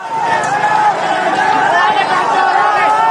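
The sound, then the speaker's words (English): A crowd of rioters during mob violence in India: a dense, loud, steady babble of many voices shouting and talking over each other, with no pause. “This is the sound of mob violence in India.”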